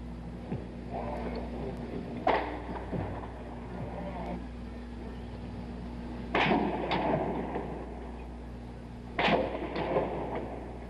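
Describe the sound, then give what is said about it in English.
Gunshots fired at a tower and across a campus mall in Austin: three sharp, loud reports spaced several seconds apart, each ringing out briefly over a steady low hum and background noise. “more sounds, more shots being fired at the tower, on the tower, on the mall”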